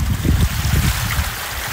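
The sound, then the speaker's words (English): Loud, steady rushing of floodwater gushing down a bank behind a house, a dense continuous roar with a low rumbling churn and no voices. “The water came pouring down the bank behind her property, also tearing up her neighbour's concrete driveway. Today it was still gushing.”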